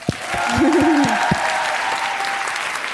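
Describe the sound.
Audience cheering and applauding, a dense burst of clapping that swells quickly and holds steady for a few seconds, with a brief voice rising over it near the start.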